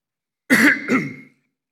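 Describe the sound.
A person clears their throat twice in quick succession. The first rasping burst is louder and the second is shorter, and both stand alone against silence.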